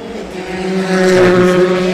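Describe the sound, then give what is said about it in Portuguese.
A rally car braking hard enough to shake, with no chicane, comes through as a loud, steady engine drone with strong harmonic tones that swell slightly toward the end. “mesmo sem chicane, eles estão a fazer uma travagem bastante forte, que até o carro abana”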